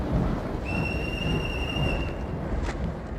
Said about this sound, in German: Wir lassen gleich auch einen Zug abfahren. Bitte von der Bahnsteigkante zurücktreten. Der Zug nach London fährt ab.